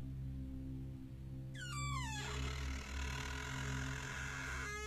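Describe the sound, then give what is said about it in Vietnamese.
A house door, latched shut before bedtime, slowly swings open at night with a wavering creak that glides downward in pitch over about a second. It sounds above a steady low hum. “Cánh cửa nhà ông Luận rõ ràng trước khi đi ngủ đã được cài chốt chặt. Bây giờ lại đang từ từ mở ra.”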